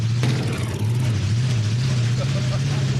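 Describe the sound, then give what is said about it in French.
A vehicle engine with a carburetion problem runs under throttle, giving a loud, continuous low drone with a steady hum and only slight wavering in pitch. “là, je vais accélérer”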